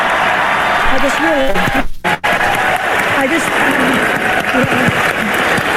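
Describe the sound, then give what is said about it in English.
Loud applause and cheering from an awards-ceremony audience after an acceptance speech, steady clapping mixed with whooping, hollering voices, and a brief drop-out near the middle. “the cast of RuPaul's Drag Race flew out of their seats and clapped when she said this”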